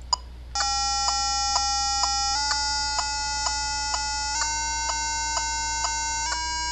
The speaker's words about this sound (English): the wonderful thing about this is you can have the tuner and the metronome go at the same time. And this is what it sounds like. Now, the tuner may be a bit loud.